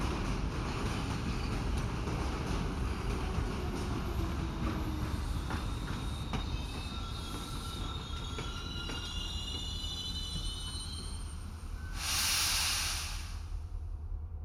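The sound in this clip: A train rolling across a steel railway bridge, with a dense, steady roar of wheels on the rails. Thin, high squeals drift through the roar, and a burst of hissing rises near the end.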